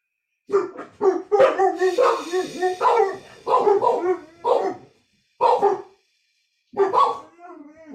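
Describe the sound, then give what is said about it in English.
Dogs barking in a series of sharp, fairly loud bursts, some of them clustered yelps and others single barks, separated by short pauses, with longer silences near the end. “Sorry about the dogs.”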